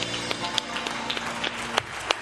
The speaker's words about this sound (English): give the Lord a hand clap tonight